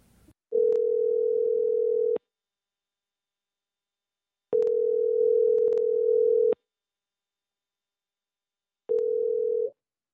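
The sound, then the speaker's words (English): Ringback tone of an outgoing telephone call: a steady, mid-pitched electronic tone sounds in three separate bursts with silent gaps between them. The first two bursts are long and the last is cut short. “Nervously, I decided to call Summer to see what the holdup was.”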